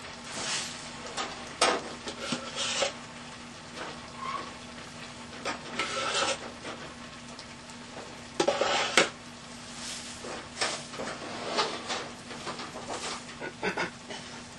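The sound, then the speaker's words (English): Dishes and bowls clatter as a new bowl is taken from among them, with many scattered clinks and knocks, irregular and mid-loud, over steady low background noise and no talk. “Let me get a new bowl.”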